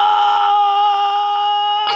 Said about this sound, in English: I woke up the cat.